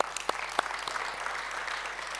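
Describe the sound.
Audience applause welcoming a woman speaker to the front during a church sermon: a crowd clapping steadily throughout, with a few sharper individual claps standing out near the start.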